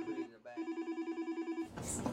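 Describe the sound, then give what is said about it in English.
An office telephone rings as a fast, faint electronic trill of about a dozen evenly spaced pulses, followed by a short burst of noisier sound. “And her phone will not stop ringing.”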